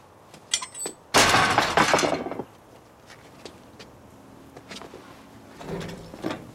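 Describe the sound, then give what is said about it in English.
A garden gate collapses as it is opened: a few light clicks, then a loud crashing, clattering fall lasting about a second, followed later by quieter knocks and scraping. “Later, Jim approaches his garden gate. He goes to open it, and it collapses.”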